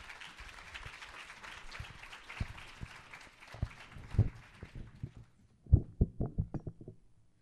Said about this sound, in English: Can you come on forward, brother? Give him a hand, guys.